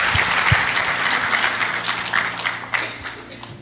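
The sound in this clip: Applause from a church audience at Life Christian Centre welcoming a guest pastor to the front during a morning service: dense, steady clapping that holds through the whole stretch with a few louder claps, and no talking.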